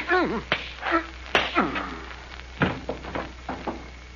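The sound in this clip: A punch to the face lands in a fistfight as a sharp, single smack that cuts through men's voices talking before and after it, with a few softer knocks in the exchange.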